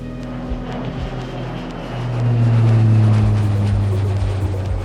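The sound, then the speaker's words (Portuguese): Small jet plane taking off, a loud continuous roar that swells in the middle and then holds at full power. “Então aperte os cintos, deixe seu assento na posição vertical, verifique se a mesinha da sua frente está devidamente presa e aperte os cintos, pois esse jatinho vai decolar!”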